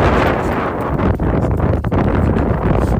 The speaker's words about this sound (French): Et les grosses rafales.